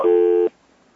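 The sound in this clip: A single steady burst of a telephone busy signal on a line after the caller hung up. The tone is loud and lasts about half a second, then cuts off to near silence.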